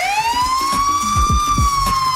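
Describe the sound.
A police car siren sounds behind a driver turning left onto 75th. A loud wail rises in pitch and then holds steady over a low, rumbling vehicle noise, with no talk.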